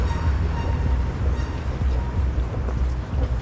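Metro station ambience among stained concrete on a humid summer afternoon, with trains and escalators nearby, heard as a continuous, loud, low-heavy rumble that stays steady throughout.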